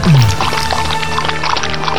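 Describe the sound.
Water being poured out for a dog to drink: a loud, continuous splashing and gurgling stream of liquid that runs steadily from start to finish with no talk over it.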